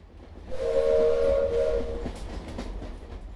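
A train entering a station sounds a steady, sustained whistle for about a second and a half over a low rumble, then the rumble and faint clatter carry on alone.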